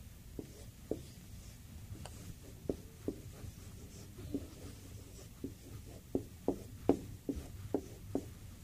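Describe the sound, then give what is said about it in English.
Pen strokes writing out a word: many quiet, scratchy taps and short scrapes in an uneven rhythm, faint against a low steady hum. “Let me write this other word here so you know exactly what we're trying to say.”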